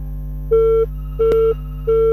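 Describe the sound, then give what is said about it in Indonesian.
A telephone call rings without connecting: three evenly spaced, steady electronic tone bursts, each about a third of a second long, sounding over a constant low hum. “Ini teleponnya berdering kok, dia terima teleponnya tidak bisa terhubung ya.”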